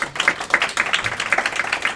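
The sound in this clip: Audience clapping in a seminar room to welcome a guest speaker, a brisk patter of many scattered hand claps at moderate loudness that keeps up for the whole two seconds.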